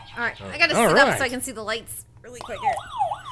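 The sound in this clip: A wavering siren sound effect, used as a game buzzer, rises and falls in pitch for about a second at the end, right after a person talks.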